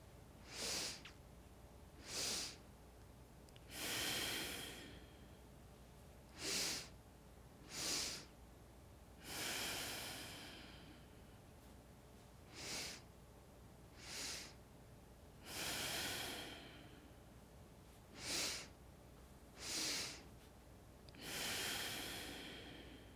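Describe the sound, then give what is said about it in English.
Rhythmic breathing during a restorative yoga breathing exercise: pairs of short inhales into the belly or chest, each pair followed by a longer, forceful exhale. The cycle repeats four times, with no talking. “Inhale, belly, inhale, belly, strong exhale, inhale, chest, inhale, chest, strong exhale.”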